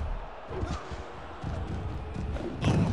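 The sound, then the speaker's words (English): Dull thuds of a wrestling slam in the video game Wrestling Empire: a few heavy impacts over a steady background wash, with the strongest hit near the end. “Good slam.”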